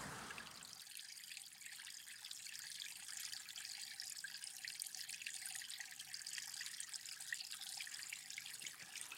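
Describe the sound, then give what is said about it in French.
Running water from small streams in Beaujolais: a faint, steady trickling wash that continues evenly throughout, with no voices. “L'eau est encore très présente. Ici, elle circule sous forme de petits ruisseaux.”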